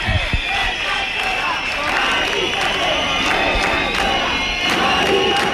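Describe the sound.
Protesters and neighbours resisting an eviction on General Martínez Campos street in Madrid, a loud, continuous crowd of shouting and cheering voices punctuated by sharp bursts and claps.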